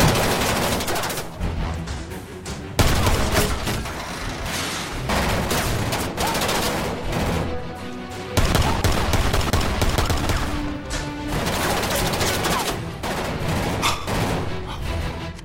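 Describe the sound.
A loud gunfire sound effect fires shot after shot in dense, rapid bursts broken only by brief gaps, a continuous barrage of sharp cracks and booms.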